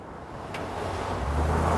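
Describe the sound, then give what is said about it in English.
A flashy sports car pulls up outside a coffee shop with a low engine rumble. The rumble is moderate at first, then deepens and grows louder toward the end. “Later, Gabriel's flash sports car pulls up outside the same coffee shop as before.”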